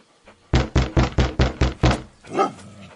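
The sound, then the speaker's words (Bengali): Knocking on a house door: seven firm, evenly spaced raps in a quick steady rhythm, loud and clear against a quiet background, followed by a brief softer sound. “আমি একবার দরজায় knock করে দেখি।”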